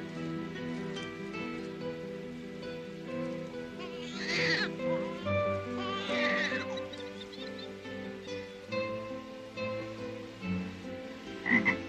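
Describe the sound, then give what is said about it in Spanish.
A toad croaks in a few rough, grating bursts that stand out over a steady, tonal background sound. “Mira, un sapo.”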